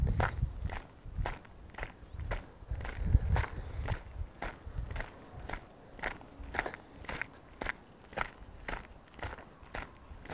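Footsteps walk steadily along a path, with many crisp, evenly spaced steps in a regular rhythm and no talking.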